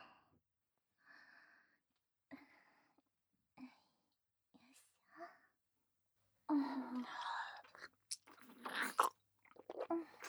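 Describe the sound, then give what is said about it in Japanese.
Close-up eating right by the ear, soft breathy whisper-like bursts at first, then denser, louder stretches of wet chewing and crunchy biting with sharp clicks, each burst separated by brief silence. “そのまま耳元で食べてあげて。”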